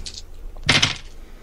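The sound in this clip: Dice clatter across a table during a tabletop role-playing game, a short, moderately loud burst of rattling with a faint tap just before it and no talk.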